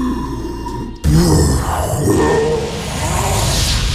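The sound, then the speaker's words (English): A voice imitates a red dragon's fire breath, starting with a low voiced hum and then bursting into a sudden, harsh, rasping roar of breath that holds for several seconds. “one thing about Dragonborns is that we all have a specific kind of breath, depending on the color. And I am a red Dragonborn, so my breath is fire. Now, observe.”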